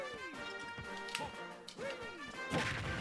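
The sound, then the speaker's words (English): A punch lands with a smashing thwack in the Super Smash Bros video game, a few quiet, sharp hits among sweeping tonal game effects, ending in a louder broad crash. “I just love the punch. It should be a meteor smash, but it's not.”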